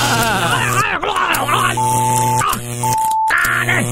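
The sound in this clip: A buzzing electric-shock sound effect in an Italian courtroom comedy sketch: steady humming tones and short beep-like pitches, with a voice groaning and crying out over them.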